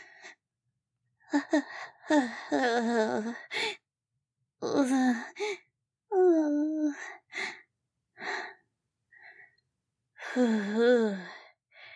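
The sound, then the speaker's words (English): Heavy breathing after intense physical exertion: several loud bursts of gasping, sighing breaths with voiced, groaning tones, separated by short silent pauses. “Sit here for a second. That was very, very intense.”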